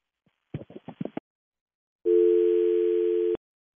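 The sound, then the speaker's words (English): A telephone dial tone sounds after a call is hung up, following a few short clicks and thumps. The steady, loud, even tone lasts a little over a second and stops abruptly. “That was a harsh hang up. I think no, that's on me. I think I hit the wrong button.”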